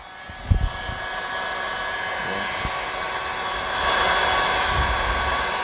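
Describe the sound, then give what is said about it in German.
A heat gun runs during soldering work on electrics, giving a steady, airy blowing roar with a few soft knocks near the start and a slight swell in loudness later on. “Ein Heißföhn, ja, das ist echt gefährlich, weil ich bin hier gerade am Löten, liebe Freunde.”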